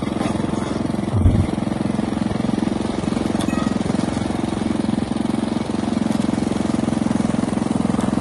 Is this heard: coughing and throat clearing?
no